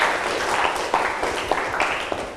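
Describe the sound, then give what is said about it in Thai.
Students clapping their hands in applause in a classroom to thank an educational video: a continuous, moderately loud crackle of many claps that stays steady throughout. “ขอนักเรียนช่วยกันปรบมือเพื่อขอบคุณสื่อวิดีทัศน์ดี”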